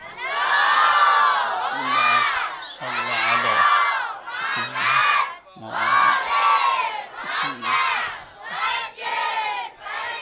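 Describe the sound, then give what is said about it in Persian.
A crowd recites salawat in unison, a blessing offered to Fatimah Zahra on the eve of a religious festival. Many voices chant together in a series of loud phrases, each surging and then easing off, with no single voice standing out. “یه صلواتی هدیه کنید برای حضرت فاطمه زهرا سلام الله علیها”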